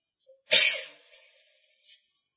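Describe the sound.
A single sneeze comes after a faint brief intake, with a sharp, bright burst that fades into a breathy, hissing tail.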